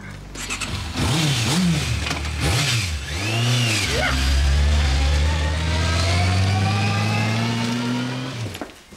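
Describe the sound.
A car engine starts and drives off. It gives several quick rising-and-falling revs, then settles into a loud, sustained engine drone that climbs gradually in pitch before cutting off abruptly.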